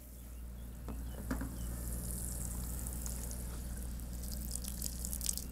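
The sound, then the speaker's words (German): Water soaks garden soil to wet it thoroughly before seeds mixed with sand are sown. A steady, soft hiss runs throughout, with scattered small drips and splashes and no voices. “Damit die Erde jetzt schön nass ist und die Samen nicht wegschwimmen, machen wir den Boden ganz nass.”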